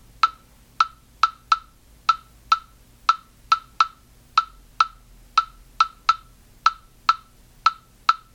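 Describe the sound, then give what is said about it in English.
3-2 rumba clave rhythm: dry, sharp wooden clicks at one pitch, played alone in a repeating five-stroke pattern that cycles several times at a steady tempo. “and then there's also the African or rumba clave, and the 3-2 rumba clave sounds like this:”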